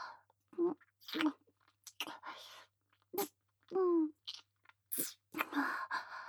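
Soft, wet lip and mouth sounds of light kissing come in short, separate bursts, with breathy murmurs and brief moaning tones between them.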